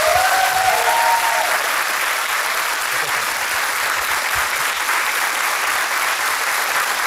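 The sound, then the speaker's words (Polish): Audience applause for a singer at a live concert, a dense, even wash of clapping that holds steady throughout. “Powtórzę, Magda Umer, wielkie brawa.”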